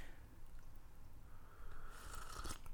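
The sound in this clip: Thin crackers crunch during a taste test: a low, steady background hiss gives way near the end to a short burst of crisp, brittle crunching, with no talk.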